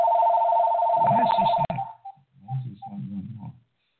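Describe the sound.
A telephone rings with a rapidly pulsing electronic tone for about a second and a half, then cuts off abruptly. People then talk.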